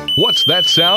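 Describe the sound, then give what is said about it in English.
A dock electricity hazard warning alarm gives a steady, piercing high-pitched electronic tone that sounds continuously while a voice talks over it. “That's the sound of the dock lifeguard warning you it's not safe to be in the water around your boat dock.”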